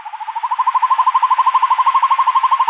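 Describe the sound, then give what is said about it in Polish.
A tawny owl in a palace park gives a loud, rapidly pulsed, wavering hoot at a steady mid pitch, held for nearly three seconds with no other sounds. “Puszczyk długo nie kazał czekać na siebie i później jeszcze odprowadzał pochukiwaniem.”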